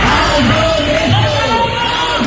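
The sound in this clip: Housing protesters marching in Madrid shout while shaking their house keys, forming a dense, continuous din of raised voices that stays loud throughout.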